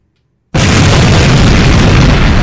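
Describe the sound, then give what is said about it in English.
A sudden, loud explosion sound effect bursts in after half a second of silence, then becomes a sustained, dense roaring rumble that holds to the end with no voices. “Did we, like, blow them up? Fire in the hole!”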